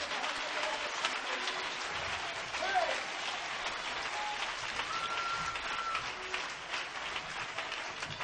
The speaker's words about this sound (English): Clap your hands and give God praise tonight.